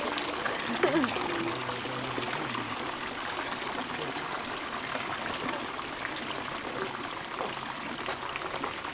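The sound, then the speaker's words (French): Swishing water as a feather is moved through it, heard through a stethoscope: a steady, soft trickling and swirling texture that stays even throughout. “Essaye d'écouter le bruit, la plume sur l'eau.”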